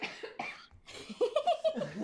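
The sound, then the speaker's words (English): Quiet, short coughs open the moment, a couple of rough bursts in quick succession, followed by a person talking. “I'm coughing as well.”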